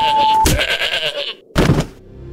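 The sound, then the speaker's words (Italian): A goat bleats in a long, wavering, harmonic cry, followed after a short pause by a second, briefer bleat; a steady electronic beep tone comes just before. “Ah, la capra! Ah, sopra la capra, la capra!”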